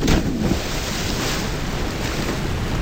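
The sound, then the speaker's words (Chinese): Water churns and splashes loudly at a deep-water jumping spot after someone leaps in, a dense, continuous rushing wash with a slightly stronger burst at the start and no voices. “这些声音在夏天很悦耳，这些水声在夏天很诱人”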